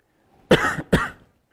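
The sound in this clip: Two short, hoarse coughs in quick succession from someone with a mint caught in the throat, loud and alone with no talk.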